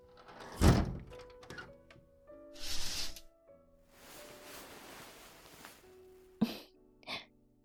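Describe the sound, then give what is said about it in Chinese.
Doors and windows being shut: a heavy thud, then scraping and sliding noises, followed by two sharper knocks close together near the end, over faint steady background tones. “你去把门窗关上。”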